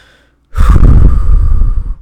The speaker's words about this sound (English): A really easy thing that we can do is simply take a breath,